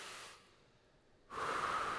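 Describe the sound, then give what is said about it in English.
A group takes a deep breath together: a soft breathy hiss fades away, then a louder, sustained airy rush starts about two-thirds of the way in and holds to the end, with no talking. “Let's all take a deep breath together.”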